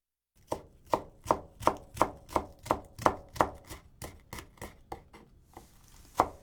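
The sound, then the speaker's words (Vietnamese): A knife slices onions into long strips in a steady rhythm of many crisp, evenly spaced chopping strokes, fairly quiet, with a short pause before a final cut. “Tiếp đó, chúng ta sắc hành thành từng đoạn dài.”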